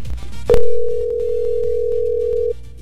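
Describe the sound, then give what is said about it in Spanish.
A phone call is placed to a radio listener: a sharp click, then a single steady mid-pitched ringing tone held for about two seconds before it cuts off. “¿A quién le vamos a marcar? Vamos a ver si nos contesta Victoria.”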